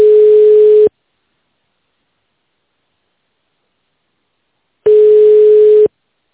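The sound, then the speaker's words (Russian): A telephone line tone plays while a call is transferred to an operator: two steady, low-pitched beeps, each about a second long, separated by a long silence. “Ждите на линии, пока выполняется перевод вызова оператору.”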